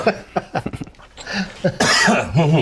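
Harsh coughing and throat clearing from someone with something caught in the throat after inhaling a cannabis dab: several sharp, uneven bursts that build into a louder, rasping stretch of coughs near the end.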